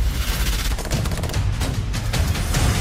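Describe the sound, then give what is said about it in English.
Heavy gunfire in a rooftop firefight, with many rapid overlapping shots crackling in dense bursts over a low, rumbling background that never lets up. “We're on the roof. Don't leave me. We're under heavy fire.”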